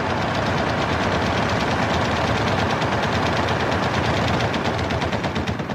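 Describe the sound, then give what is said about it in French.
Gunfire with the rattle of two machine guns in a street fight, a dense, unbroken stream of rapid, loud crackling shots that holds steady for the whole stretch, with no voices. “la fusillade commença, tandis que se précipitait le crépitement sinistre des deux mitrailleuses.”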